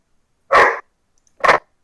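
Two sharp barks from a dog wanting to go out during an online call. The barks are loud and short, separated by a pause of roughly a second, with silence around them.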